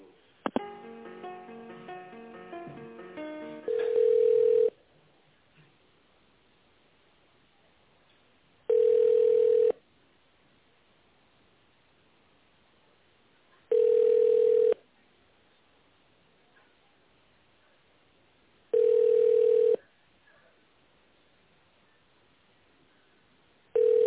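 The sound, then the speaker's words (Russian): Telephone line tone during a call transfer: after a brief jumble of tones at the start, a steady low-pitched beep repeats four times, each about a second long and evenly spaced roughly five seconds apart, with quiet line hiss between. “давайте я вас с отделом тендеров соединю, чтобы вы там уже более детально обсудили этот вопрос, ладно? Да, конечно, спасибо. Сейчас, секундочку, одну прям буквально. Ага, сейчас соединяю.”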